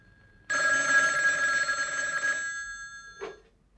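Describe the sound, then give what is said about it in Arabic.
Telephone bell rings in one long, loud, continuous burst of bright metallic trilling lasting about two seconds, then fades, with one short separate blip a moment later. “سأرد على التليفون.”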